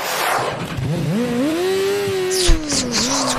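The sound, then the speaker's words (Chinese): A car engine revs as the vehicle drives off in a comic chase scene, its droning tone climbing in pitch and then holding steady, loud and alone, with a brief knock partway through. “开车走人了， 追他！”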